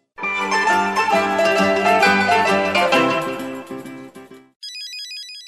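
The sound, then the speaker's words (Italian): A mobile phone rings with a bright melodic ringtone that repeats for about four seconds, then a brief high electronic warble follows. “Il tuo cellulare sta squillando.”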